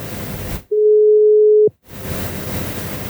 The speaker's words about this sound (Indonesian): Coba kita telepon dulu. Nah, apa nyambung nih?